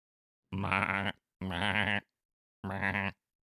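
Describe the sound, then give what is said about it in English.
Llama calls: three drawn-out, nasal, bleating cries with strong harmonics, each about half a second long and separated by short silences, with no talk. “Is that what the noise llamas make? That's a dying giraffe.”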